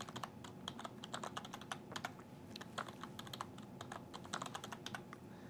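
Quiet, fast typing on a computer keyboard while an administrator username and password are entered: many quick, faint key clicks in an uneven rhythm, with no voices.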